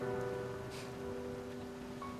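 Steady rain falls in a continuous, even hiss with a soft patter of drops, moderately loud and unbroken throughout, with no voices.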